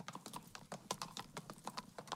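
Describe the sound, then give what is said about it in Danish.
Horses' hooves clop on the ground as riders enter a town in central Sicily in 1876, a quick, irregular run of many fairly faint hoof strikes overlapping from more than one animal. “Den 24. marts 1876 rider de ind i byen Caltanissetta på det centrale Sicilien.”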